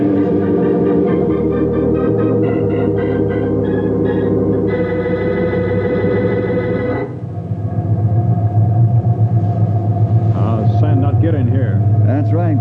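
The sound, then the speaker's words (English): A heavy sandmobile truck with heavy tires and small sealed windows rumbles through a sandstorm, a loud, dense low engine drone layered with tonal hum that shifts in character partway through. “Lucky we had one of these in our area. Government built only a few, call them sandmobiles. Heavy tires, small windows, seal the course. Each of these trucks is equipped with compass and radio and radar. Only way in the world you can get about during a sandstorm”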